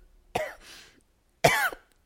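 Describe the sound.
Throat clearing and coughing from one person: two loud, rough bursts, the first trailing into a raspy breathy tail, the second a sharp harsh cough, with silence between them.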